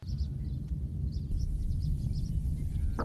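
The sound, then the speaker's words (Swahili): Steady wind-like rumble fills natural surroundings at Engaruka. Faint, high bird chirps repeat over it at intervals. “Sauti za ndege, viumbe hai, wanyama pori, upepo na sauti za mazingira halisi husikika zaidi katika eneo hili maarufu la Engaruka.”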